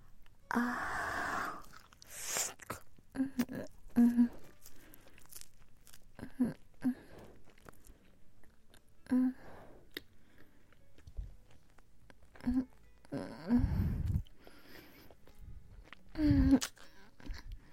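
Wet chewing of beef jerky, with moist, sticky mouth noises and crinkly, tearing bites arriving in irregular bursts, several louder ones toward the end.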